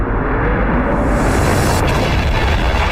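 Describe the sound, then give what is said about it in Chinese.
A violent explosion tearing apart the fragile hull of the Apollo 13 spacecraft, heard as a loud, sustained, low roaring rumble that stays dense and steady for about three seconds without separate bursts. “一次猛烈的爆炸撕碎了阿波罗十三号脆弱的外壳”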